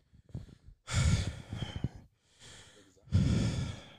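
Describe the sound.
Heavy, out-of-breath panting: a softer breath leads into a few loud, rasping gasps and exhalations with short pauses between them.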